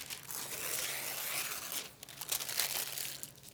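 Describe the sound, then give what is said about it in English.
A page is ripped out of a Bible, making a quiet, rough tearing and crinkling of paper in two stretches, with a short lull between them. “What if we rip that page out? In fact, what if we didn't have any of it? What if we didn't have one verse? What if our Bible was blank, like this one?”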